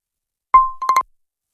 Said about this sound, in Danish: Det ringer telefonen, vi skal kontrollere da.